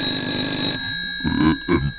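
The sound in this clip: A telephone rings with a steady, bright electronic trill that lasts under a second and then cuts off, followed by a few lower tonal sounds.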